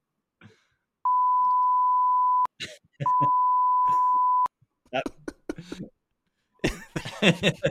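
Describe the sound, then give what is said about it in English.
A censor bleep covers a swear word: two long, steady, mid-pitched beeps of about a second and a half each, with people talking between and after them. “That there was one swear, so we put a little bleepy noise over.”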